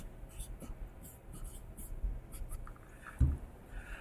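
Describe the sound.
Writing on a board during a lecture on probability: faint, continuous scratchy strokes with small gaps between them, ending with a soft low knock.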